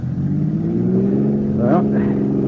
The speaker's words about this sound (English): Go on, give it the gas.